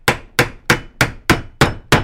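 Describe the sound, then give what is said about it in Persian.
Seven sharp, evenly spaced hammer blows ring out one after another. Each is a crisp, loud strike with a short decaying tail, and no voices are heard. “بلدم با چکش کار کنم.”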